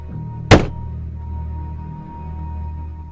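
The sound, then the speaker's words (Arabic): A single sharp knock gives a yes answer to a question in a horror drama. It lands once, loud and abrupt, then decays over a low steady hum. “بص لو سألتك سؤال واجابته اه هتخبط خبطة واحدة، ولو اجابته لا خبطتين.”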